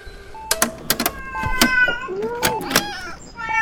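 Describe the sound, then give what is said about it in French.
A cat meows inside a hospital: a few short, high, tonal meows and one longer drawn-out cry near the end, mixed with sharp clicks and knocks. “c'est fou qu'ils laissent les chats rentrer à l'hôpital.”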